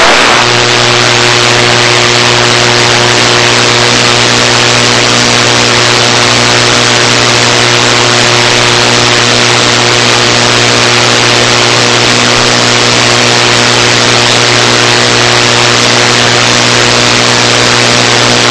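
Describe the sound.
An aircraft's engines roar as it takes off from runway 7, a loud, steady drone carrying strong humming tones that stays level throughout.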